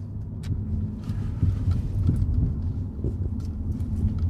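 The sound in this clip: A car drives off, producing a low, even engine rumble with a soft road roar that holds steady throughout and has no voices over it.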